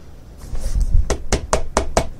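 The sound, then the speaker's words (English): Knocking on a cabin door: five firm, evenly spaced knocks in quick succession, each a sharp, hollow thud, following a brief stretch of faint shuffling noise. “I guess we'll go and knock on the door.”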